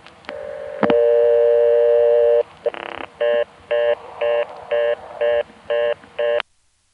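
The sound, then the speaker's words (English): Touch-tone dialing of a long-distance telephone call: a steady dial tone holds for about two seconds, then gives way to a quick run of short, evenly spaced key tones. “So that time we were able to start dialing a long distance call, but we were stopped by the fact that we can't talk to the operator. Let's dial one again.”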